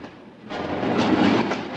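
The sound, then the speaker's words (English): A train rolls slowly across a bridge, its broad, steady rumbling clatter starting softer and swelling louder after the first half-second, with no voices. “Slowly the train crosses the bridge.”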